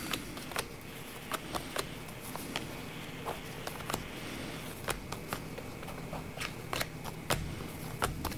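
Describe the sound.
Playing cards being drawn and handled during a card reading: a long run of many soft, sharp snaps and papery rustles at an irregular pace over a low steady hiss, with no talking.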